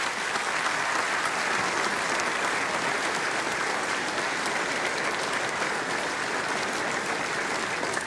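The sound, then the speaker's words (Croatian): Audience applause fills the Croatian National Theatre at a 130th-anniversary celebration of the historic building, a thick, even clatter of many hands held at a constant level for several seconds. “Molim vas još jedan veliki pljesak za Vatroslava Lisinskog i za 130. rođendan ovog povijesnog zdanja Hrvatskog narodnog kazališta.”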